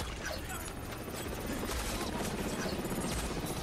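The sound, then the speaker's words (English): Rapid gunfire in a film action scene on a street, with a man shooting as he runs. Sharp shots crack through a dense, loud, continuous mix without pause. “Cable's progress through the street is presented as if from the perspective of the gamer, the screen overlaid with pictograms and score markers. He shoots as he runs.”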